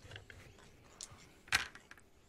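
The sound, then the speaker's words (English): A pair of dice is rolled, giving faint scattered clicks and one sharper clack in the middle, quiet over a low background hiss. “I'm going to roll a dice. A pair of dice. And see which one gets higher.”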